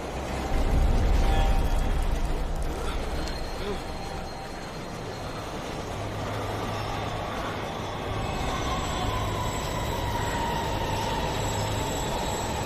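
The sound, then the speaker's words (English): Inside a rail car, a train rumbles loudly and steadily with a dense roar of wheels and a thin metallic squeal running through it, holding a fairly even level throughout. “They pull apart warily as the train begins to slow. It comes to a halt and the car lights are switched off.”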